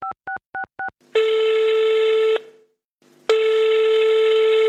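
A phone number being dialled, then ringing: four quick two-tone keypad beeps, followed by two long, steady ringback tones separated by a short silence.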